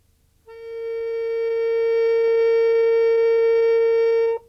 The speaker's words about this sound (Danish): Se på dit diagram, uanset om det er piano eller knapharmonika, så er det noteret, hvor det nye A, hvor den nye tone ligger. Den lyder sådan.